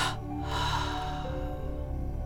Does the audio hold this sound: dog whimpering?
no